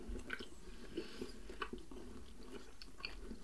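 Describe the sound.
Soft chewing of a cream-filled sponge cake, a few faint, moist bites and smacking squishes spread unevenly across the quiet stretch.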